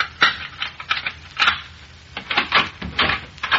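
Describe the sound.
An apartment door being opened makes a quick, irregular series of sharp clicks, clacks and rattling taps, moderately loud and with no talking.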